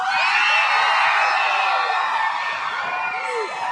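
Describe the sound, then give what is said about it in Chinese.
Fans in an audience screaming and cheering for a pop group, a sustained roar of many shrill, high voices that stays loud throughout and eases slightly near the end. “对，到底尖叫有多大声，就代表他们有多欢迎。再来一次，”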